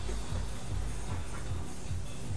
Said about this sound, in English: Oh, it's bubbling. Quick, run. So, everybody want tea?